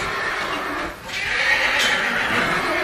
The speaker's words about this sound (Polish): Iluletni to jest koń? To jest 2-letni koń. A jaka to rasa? Pełna krew angielska.